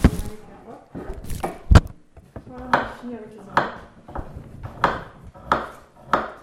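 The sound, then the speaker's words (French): A knife chops a shallot on a cutting surface in a kitchen, producing a few irregular, sharp taps and clacks separated by pauses, one hit standing out louder than the rest. “Je refais une échalote.”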